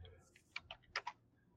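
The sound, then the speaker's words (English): Keystrokes on a computer keyboard as an address is typed in, a few light, quiet clicks in a short uneven burst, then stillness. “Okay, I'm gonna type that in and see what pops up here.”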